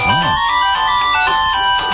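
A new phone's ringtone plays alone: a loud, bright electronic melody of warbling tones that runs continuously.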